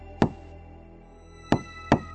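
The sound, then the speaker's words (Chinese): Slow, rhythmic knocking on a door at night: one sharp knock, a long pause, then two more knocks in quick succession, each crisp and evenly loud over a faint steady hum. “那是一种缓慢的敲门声，非常有节奏，先是一下，然后停顿片刻，接着又是两下。”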